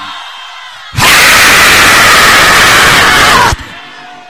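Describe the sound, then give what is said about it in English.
A church audience shouts and screams in one loud, dense roar that bursts in suddenly, holds steady for about two and a half seconds, then cuts off to quieter background. “Shout and scream, Lord!”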